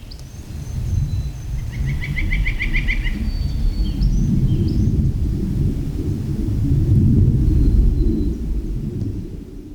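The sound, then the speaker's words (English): Birds chirp and trill in short bursts over a continuous low rumble of aircraft in the sky above Lawn Lake in Rocky Mountain National Park. The rumble swells toward the end, and the bird calls fall away after the first few seconds. “And of course, you hear the birds there. And what sounds maybe like wind is actually aircraft in”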